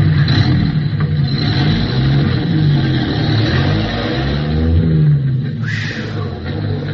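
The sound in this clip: A truck shifting gears and driving off: a loud, continuous low engine rumble with revving runs throughout.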